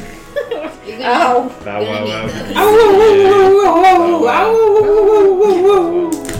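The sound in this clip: A person imitates a wolf howl during a tabletop role-playing game, holding a long, loud, wavering vocal tone for several seconds after a stretch of talking.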